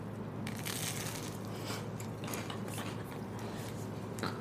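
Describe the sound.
Someone bites into and eats a freshly made homemade dish, producing faint, steady crunching and chewing that continues throughout.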